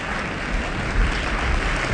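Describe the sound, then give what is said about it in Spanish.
A studio audience applauds as the Yale Glee Club walks onto the stage, a dense, even wash of many hands clapping that holds steady throughout. “Con estos aplausos saluda el público asistente al estudio auditorio la entrada al escenario del Yale Glee Club.”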